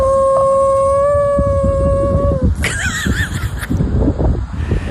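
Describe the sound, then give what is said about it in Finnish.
A dog howls with a long, steady, clear tone, then shifts into a higher, wavering note, its voice sounding unusual and rougher than normal, over a noisy background. “Siis ensinnäkin mä oon kuullut ennenkin tämän Hilman ulvontaa, mutta ei se ikinä kuulostunut tältä.”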